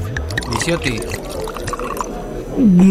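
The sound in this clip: Liquor pouring into a glass in a steady splashing stream, heard under a person talking, growing louder toward the end.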